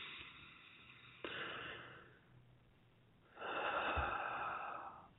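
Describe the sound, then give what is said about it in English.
A slow, deep calming breath: two long airy rushes of breath separated by a short pause, the second louder and fuller than the first. “just reminding myself to breathe. So deep breath, calming,”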